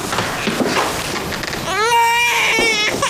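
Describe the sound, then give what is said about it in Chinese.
A frightened child cries loudly, breaking into a sustained, high, wailing sob with a tonal, strained quality, amid busy background sound. “哭哭哭，就知道哭”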